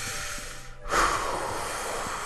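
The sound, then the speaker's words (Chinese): A deep breath taken to calm down: a brief rush of air followed by a soft, steady, breathy hiss. “你冷静一下，深呼吸，深呼吸。”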